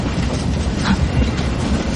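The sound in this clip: A railway wagon rolling on rails, a loud, continuous low rumble with steady rattling and clattering throughout.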